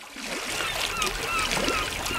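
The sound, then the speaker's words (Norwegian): Summer seaside sounds: waves lap and splash steadily while brief, high bird cries like gulls call out faintly over the water. “Ja, jeg fant frem sommerlydene her ettersett. Bølgeskvulp og måkeskrik og humlesur.”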